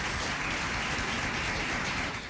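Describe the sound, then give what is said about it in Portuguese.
Applause for a birthday guest's song performance forms a dense, even wash of clapping for about two seconds, without voices. “Muito bem, mais uma salva de palmas.”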